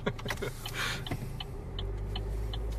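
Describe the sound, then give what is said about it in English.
A car driving home produces a low, continuous engine rumble with faint higher rattles, growing steadier and louder toward the end. “And figured we'll record our thoughts now because it's a little bit of a drive. Yep. Turn right.”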